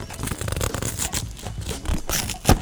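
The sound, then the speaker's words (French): A cardboard box is opened before an assembly job, giving continuous rough rustling and scraping with crinkly bursts and a sharper thump near the end. “Fait qu'on va juste ouvrir la boîte.”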